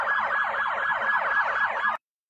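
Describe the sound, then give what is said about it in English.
A police siren wails in a fast, repeating yelp during a street protest, steady and loud for about two seconds before cutting off abruptly into silence. “You'll also see a large police presence here, and there were sirens going off.”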